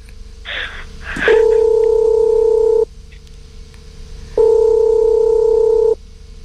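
Telephone tone while placing a call: a steady, loud electronic tone sounds twice in long even bursts separated by a silent gap, after a brief clatter at the start.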